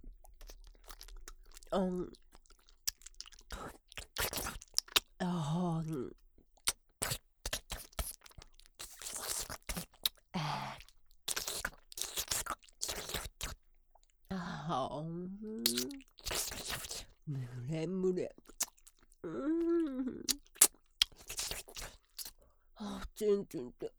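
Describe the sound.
A crunchy breaded chicken cutlet being chewed: many sharp, crisp crunches and crackles in irregular bursts, with a voice heard at times between bites.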